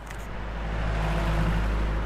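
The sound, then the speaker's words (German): Rush-hour car traffic crawls through central Nicosia, Cyprus, as a dense, continuous low rumble of engines that swells slightly early on and then holds steady. “Rush Hour in der zyprischen Hauptstadt Nikosia. Eine wahre Blechlawine wälzt sich durch die Innenstadt.”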